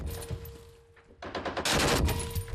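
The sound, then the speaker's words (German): Volley of gunfire during aimed shooting practice: a brief lull, then a loud, dense rattle of rapid overlapping shots that holds strong to the end. “Weiter schießen. Okay, gut gemacht. Noch eine Salve, dann ist gut.”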